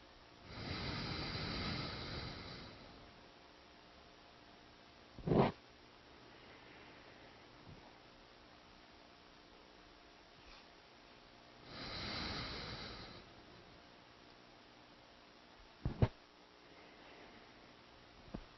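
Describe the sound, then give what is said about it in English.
Quiet airy breathing during alternate nostril breathing, in through the left nostril and out through the right: two slow, hissing breaths separated by long pauses, with a few sharp nasal snuffs in between. “Now we breathe in through our left and out through our right.”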